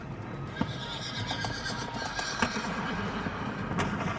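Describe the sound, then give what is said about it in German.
A horse whinnies, a loud neighing call set against a steady background, with a few sharp clicks like hooves striking the ground. “Das ist sein Pferd, ja. Das erkenne ich.”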